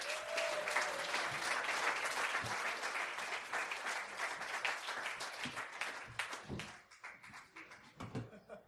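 Audience applause at a live storytelling event in Denver as two filmmaker brothers are welcomed to the stage. Fairly faint, dense clapping thins out toward the end into a few scattered, separate claps.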